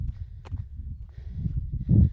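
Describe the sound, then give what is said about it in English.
Footsteps of a brisk walk, a quick, steady run of many soft, low thuds in an even rhythm, fairly quiet and without talk. “back to a brisk walk.”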